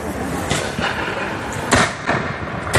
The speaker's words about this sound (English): The British have opened fire. The British open fire. And the colonists, you see it there, are ordered to return fire. And that order, those are the first shots of the revolution.